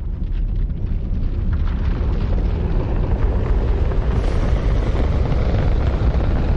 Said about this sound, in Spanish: Se detiene y mira el cohete que sale por el tejado de la casa.